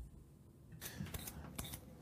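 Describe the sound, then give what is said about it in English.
Potato being peeled, a few faint scraping strokes of the blade against the skin that stand out briefly from a quiet background hiss. “For example, here's me peeling a potato.”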